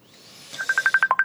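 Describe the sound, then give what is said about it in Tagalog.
A mobile phone ringtone sounds as a rapid run of short, high electronic tone pulses, clear and fairly loud, after a soft swelling start. “may nagpanawag. Cellphone ko.”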